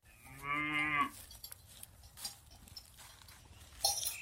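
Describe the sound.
Farm cattle kept in a calf-sharing arrangement give one drawn-out, low, harmonic moo near the start. Faint rustles, soft knocks and a brief high sound follow in the quiet background.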